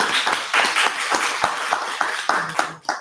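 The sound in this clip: An audience applauds a speaker's husband at an event in Harlem, New York, with many quick claps blending into a steady, lively patter that continues throughout.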